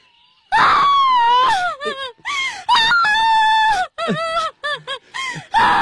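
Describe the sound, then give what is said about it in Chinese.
A woman cries and wails, loud voiced wails whose pitch slides up and down, broken into several sobbing bursts separated by short gasping gaps. “别哭，你别哭啊。”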